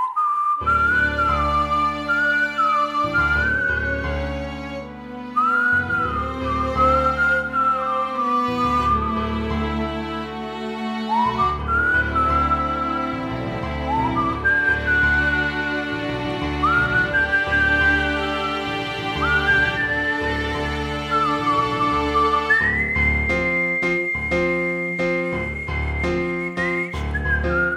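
One person whistles a song melody alone, with clear sustained notes and smooth slides between them, moving in phrases that climb to a higher held note near the end.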